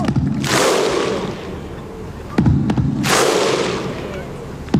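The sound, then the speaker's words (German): Icelandic football fans at Euro 2016 in France chant in unison, with two loud, sharp bursts of a massed shout and clap rising out of a sustained crowd roar. “Das sind die Isländer. Und zwar bei der Fußball-Europameisterschaft 2016 in Frankreich. Die haben eine Stimmung gemacht.”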